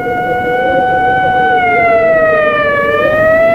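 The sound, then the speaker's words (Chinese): Ambulance siren on a dark, quiet narrow street, a loud wailing two-tone sweep that holds steady throughout, its pitch dipping briefly near the end before climbing again. “远处突然响起救护车的声音，由远及近，声音越来越大，救护车呼啸着向小街深处驶去。”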